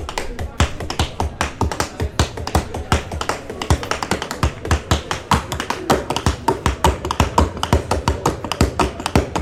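Tap dancing at a midday outdoor jazz concert on a hospital terrace in Geneva, many rapid, crisp taps in dense, uneven rhythmic runs, loud and steady for the whole stretch.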